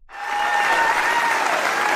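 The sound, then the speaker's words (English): An awards-show crowd at the Logies rises into a standing ovation for a performer in a surprise comedy skit, the clapping swelling quickly from nothing into a loud, dense, sustained roar of applause. “Zabanski receiving a standing ovation from the crowd as she appeared in character as Sharon Streslecki.”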